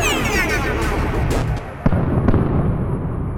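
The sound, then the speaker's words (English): A neutrino-based disruptor weapon firing in a sci-fi robot battle: a dense, loud roaring blast with a high whine falling in pitch and two sharp cracks cutting through. “However, I am equipped with a neutrino-based disruptor. Great, fine, yes, use that. Fire now!”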